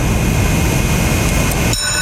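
A mechanical hare lure runs along the track at a greyhound race over 260 meters, making a loud, steady rushing whir that cuts off abruptly just before the end.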